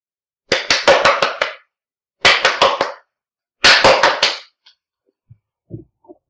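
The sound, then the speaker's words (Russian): Hands clap as a greeting at a channeling session. Three short bursts of rapid, crisp claps are separated by silence, and a few faint knocks follow. “Мы приветствуем вас. Наше приветствие. Звуковое в виде аплодисментов”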